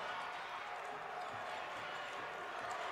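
A basketball is dribbled during a game, the bounces faint under steady crowd noise.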